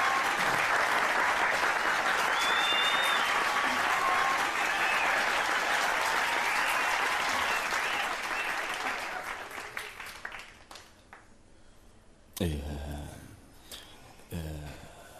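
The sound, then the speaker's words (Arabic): An audience claps at a school performance, a thick, steady burst of applause lasting about nine seconds. It then fades away, leaving a few scattered knocks and rustles. “تصفيق.”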